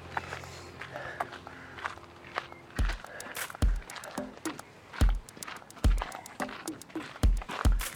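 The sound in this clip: Brisk walking footsteps along paths in a city park: many steady, rhythmic footfalls come clearly after a quieter opening stretch. Each step lands as a sharp, moderately loud thud with no talk over it.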